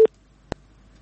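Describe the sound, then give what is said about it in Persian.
Telephone busy tone after a call is disconnected: two brief, steady electronic beeps about half a second apart, the first louder, with silence after. “خب تماس قطع شد.”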